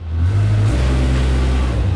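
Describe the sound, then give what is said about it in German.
Low droning engine of a construction machine starting up again near a kiosk on the Rheingasse, swelling over the first moment and then holding a loud, steady, even hum with no voices. “Dann fährt langsam das Brummen der Baumaschine wieder an.”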